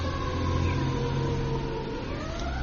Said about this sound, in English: Going to pause for this emergency vehicle.